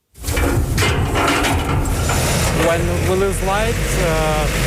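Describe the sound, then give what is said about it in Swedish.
A large backup generator starts automatically in an apartment block courtyard in Kyiv during a power cut, a loud, steady engine rumble with a voice talking over it. “När eltillförseln till höghuset i Kiev bryts startar den stora generatorn på gården automatiskt.”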